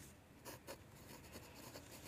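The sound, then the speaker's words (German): Handwriting on paper: faint, dry scratching strokes of a pen, with a couple of slightly louder strokes early on, then a steady run of soft scribbling, with no voices. “Du hast noch eine Minute Zeit, weil ich schreibe noch unten rein, was wir gemacht haben.”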